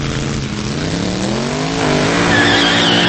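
Motorbike blasting off at speed, a loud, continuous, harsh engine roar whose tone climbs and swells louder in the second half.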